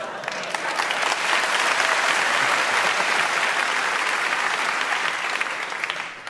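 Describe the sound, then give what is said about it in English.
Applause from a Yorkshire audience: dense, steady clapping that stays loud and even for about six seconds before easing slightly at the end. “Well, the audience didn't clap the word French, so...”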